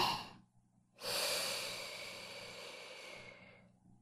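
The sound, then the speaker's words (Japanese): A deep, slow inhalation during a guided breathing exercise, a long airy rush through the nose or mouth that starts abruptly after a brief pause and gradually fades over about two and a half seconds. “大きく、深く、ゆっくりと。せーの、吸って。”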